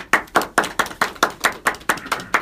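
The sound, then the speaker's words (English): Hand clapping to welcome a speaker on stage: eleven evenly spaced, sharp claps in a steady rhythm, loud and alone with no voices. “Ladies and gentlemen, give a warm welcome. Fresh and clean. You should see the socks on this guy. Give it up for Jason Miller.”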